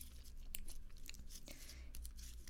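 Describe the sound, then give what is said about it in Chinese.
Sticky, crackling squishes of slime pressed onto the ear during ASMR ear cleaning, a steady stream of soft, wet crunches and pops that continues throughout without talk. “先把史莱姆粘到你的耳朵上，然后给你掏耳朵，好不好？”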